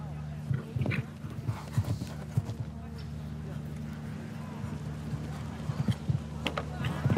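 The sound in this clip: Hoofbeats of a horse galloping around a show jumping course with 1.60 m fences, rapid clip-clop strikes in uneven bursts under steady commentary as people talk throughout.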